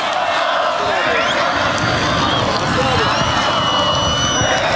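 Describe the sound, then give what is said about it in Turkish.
Football fans at the club's Topuk Yaylası training facility chant and cheer for the team's technical director, a dense, continuous roar of many voices that holds loud and steady throughout. “teknik direktörümüz Sayın İsmail Kartal'a sevgi gösterilerinde bulunuyorlar. Yaptıkları tezahüratlarla birlikte”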